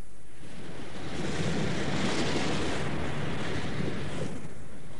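Ocean waves wash in a steady, dense roar of surf, joined by a broad hiss of wind. The noise holds at an even level throughout, with no voices.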